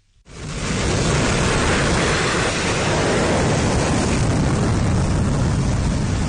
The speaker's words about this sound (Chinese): 海军山东舰披浪前行，飞行甲板上舰载战斗机蓄势待发，伴随着发动机发出嘶吼声